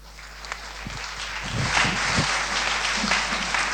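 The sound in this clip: An audience applauds to welcome a speaker at a Royal Academy event, the clapping starting softly and swelling after about a second and a half into a steady, even patter.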